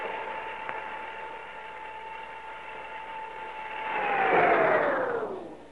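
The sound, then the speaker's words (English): An elevator's steady mechanical whine holds one pitch, then swells and slides downward as the car stops and gets stuck after a power cut. The sound is moderately quiet, with no voices. “Then why are we stopping? Elevator's stuck. Power's cut off.”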